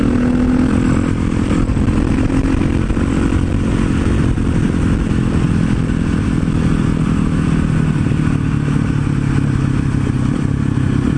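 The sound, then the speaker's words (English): A supermoto motorcycle, effectively a light dirt bike, cruises on the road at slow speed. Its engine gives a loud, steady, low mechanical drone with a clattering texture for the whole stretch. “just cruising on the road at a slower speed, and that's definitely not what the supermoto likes to do.”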